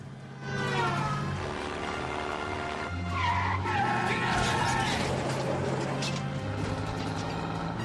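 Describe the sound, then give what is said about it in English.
A video game car drives through a flaming truck with a loud, continuous engine roar and screeching tyre skids that stay intense throughout, with a rougher burst of noise partway through. “Thomas Howe driving through a flaming truck”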